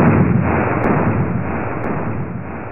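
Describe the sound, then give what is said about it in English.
The Metal Blade weapon firing in the NES video game Mega Man 2 gives a loud, harsh, continuous burst of electronic noise that holds steady for a few seconds. “Use the Metal Blade weapon in Mega Man 2 on the NES to attack enemies in 8 directions.”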